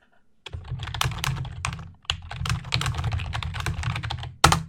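Someone types a comment into a spreadsheet cell on a computer keyboard, producing a fast, steady run of many crisp keystrokes with a short pause partway through and one louder key press at the end.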